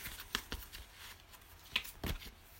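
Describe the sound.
Soft rustling and snapping of a deck of cards being handled, a few brief papery bursts standing out against a quiet background.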